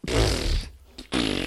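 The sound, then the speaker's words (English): Two loud, buzzy fart sounds: a longer, rumbling one followed after a short gap by a briefer burst. “Double fart sound.”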